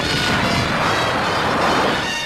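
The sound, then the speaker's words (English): Heavy artillery fire in combat makes a dense, loud, continuous roar that stays level throughout, with no separate blasts standing out. “Then from the heavy artillery.”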